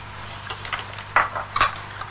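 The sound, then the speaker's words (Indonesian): A spoon clinks against a cup as sugar is stirred into a drink: a series of light, bright taps and scrapes, with a few louder clinks near the end and no talk. “Kasih gula dulu ya. Diaduk dulu ya.”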